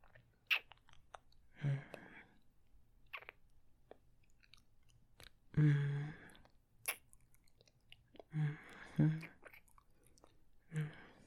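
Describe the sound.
Wet mouth sounds of licking: several separate bursts of moist smacking and slurping, each short, separated by quiet pauses, heard alone without talking.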